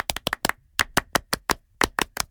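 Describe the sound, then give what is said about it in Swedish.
Studio hosts give a French-style round of rhythmic clapping, many sharp, crisp claps in a quick patterned sequence with short grouped bursts and brief pauses between them. The claps stand alone without talk. “Vi kan ge Fredrik en stor fransk applåd. Det tycker jag. Un, deux, trois.”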